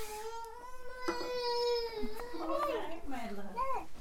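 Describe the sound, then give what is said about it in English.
A baby cries during a diaper change. A drawn-out wail breaks into shorter, choppy sobs, with adult voices talking over it. “Every single time, this kid cries and kicks”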